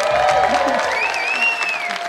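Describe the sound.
A game show studio audience bursts into loud, sustained applause and cheering to welcome the first contestant, with a voice briefly heard over the clapping.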